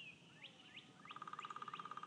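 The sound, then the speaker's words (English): Faint bird calls from a woodpecker at a campsite: a few quick rising chirps, then a rapid, evenly spaced series of sharp tonal pulses that keep going to the end. “it's a, what do you call it? Woodpecker. So we're at a campsite”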